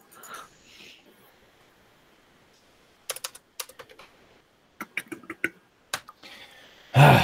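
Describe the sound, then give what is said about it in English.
Typing on a computer keyboard in several short bursts of quick, crisp key clicks, separated by quiet pauses. “Got to type in the authentication station to get some things rolling.”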